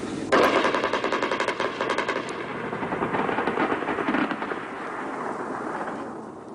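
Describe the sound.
Rapid automatic gunfire from aircraft and helicopters bombing Taliban at night, a dense continuous rattle of shots that starts abruptly, stays loud for a few seconds, then thins into a fainter, rumbling tail.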